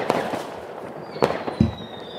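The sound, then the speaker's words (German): Firecrackers exploding in a video game, lit by small boys with a cigarette: a few sharp, crackling bangs at irregular intervals over a steady low noise bed, with a faint high whistle drifting through. “Der raucht die Böller. Der zündet die Böller mit einem Glimmstängel.”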